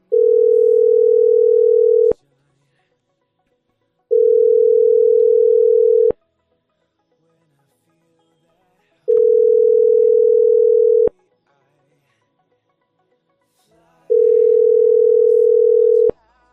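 Ringback tone on a telephone line after dialing a number: four long, steady, mid-pitched beeps, each about two seconds, separated by silent pauses, with no voices.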